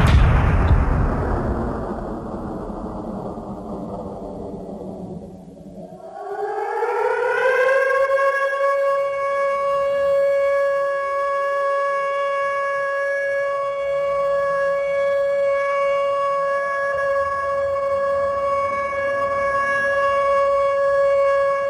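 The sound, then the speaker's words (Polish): Sirens open a 1922 concert written for sirens: loud, noisy tones slide downward for about six seconds, then the sirens swell upward into a steady, sustained chord of several held pitches that continues to the end. “Ale wróćmy do tych syren, do Arsenego Avramova.”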